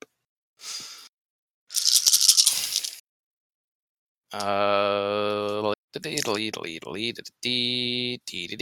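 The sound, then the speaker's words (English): Ten dice being rolled for a tabletop role-playing game: a brief soft rattle, then a louder, longer clattering shake, followed by people talking. “Roll 10 dice.”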